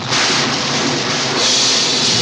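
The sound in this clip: Thunder and exploding fireballs in a dramatic sound effect make a loud, continuous roaring rumble with a hissing top layer that swells a little louder partway through.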